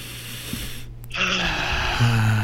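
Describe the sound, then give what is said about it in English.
A deep breath drawn in through the nose during a guided breathing exercise: a steady, airy hiss that begins after a brief quiet pause and holds to the end over a low hum. “3, 2, 1, in through the nose.”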